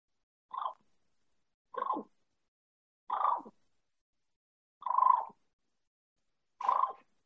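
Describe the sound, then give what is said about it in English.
A person imitates a turkey cluck and purr with a call, as in a calling-contest demonstration. Five short, evenly spaced bursts sound alone against silence, each a sharp cluck trailing into a brief rolling purr. “I'm just going to do a cluck and purr.”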